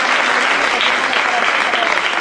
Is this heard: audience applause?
yes